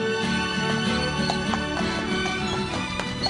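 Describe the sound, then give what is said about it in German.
Hooves clip-clop as horses pull a covered wagon off on a trek, a steady rhythmic clopping over a constant low background hum. “Danach werden die Pferde eingespannt. Der kleine Trek setzt sich zu seiner zweiten Etappe in Bewegung.”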